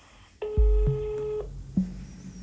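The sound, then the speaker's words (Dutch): Telephone ringing tone on a call to a family doctor: one steady ring of about a second, fairly quiet, accompanied by a few dull low knocks and thumps around it. “Nummer wordt opgezocht en Bram mag de huisarts vast bellen.”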